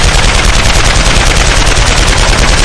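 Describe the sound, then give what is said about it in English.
Loud, frantic gunfire as someone pulls the trigger over and over, forming a dense, unbroken burst of rapid shots for nearly three seconds with no pauses and no voices. “shut his eyes tight before frantically pulling the trigger.”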